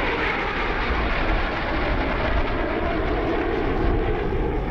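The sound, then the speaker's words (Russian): An airplane in flight gives a steady, dense roaring drone that holds an even loudness throughout, with no voices. “Самолет.”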